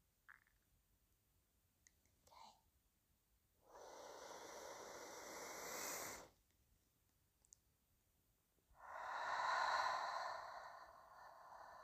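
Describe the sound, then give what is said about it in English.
Slow meditation breathing in through the nose or mouth: two long, airy breaths, each drawn out for a couple of seconds, preceded by a few faint short sniffs or clicks, with quiet between them. “So let's do these together. You can breathe in through your nose, you can breathe in through your mouth.”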